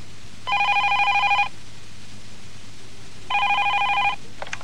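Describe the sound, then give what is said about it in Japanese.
A household telephone rings in two separate bursts of about a second each, with a bright trilling bell tone and a quiet pause between them. “遊んでいて遅くなったしんちゃんが外から電話をしています。”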